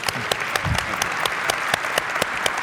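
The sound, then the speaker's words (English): Audience applause during a talk about an athlete's long career with one team: steady, dense clapping with sharp individual claps standing out, moderately loud and continuous throughout, without any talk over it. “You can applaud if you want to”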